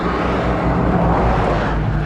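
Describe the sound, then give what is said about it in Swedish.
Road traffic on the old Köpingsvägen near Munktorp, with cars passing close by, rumbles as a loud, steady wash of engine and tyre noise with no pauses. “Jisses, alltså vilken trafik! Ja, precis. Här är vi gamla Köpingsvägen, precis vid Munktorp.”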